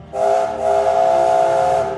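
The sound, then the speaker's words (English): A big steam locomotive's whistle sounds in one long, loud, steady blast, dipping briefly near the start and then holding for about two seconds. The tone is bright and hissing, and it is heard alone. “Yong Bao is a big, brave, bright red engine with a beautiful gold tiger painted on his tender. He is clever, kind and caring and has a whistle that sounds like this.”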